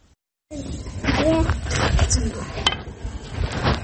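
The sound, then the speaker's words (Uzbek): Clatter and scraping from a black cauldron cooking over a makeshift stove, with metallic clinks and stirring noises that continue steadily at moderate loudness. “qora qozonni qo'l bola o'choqda qaynatishga majbur”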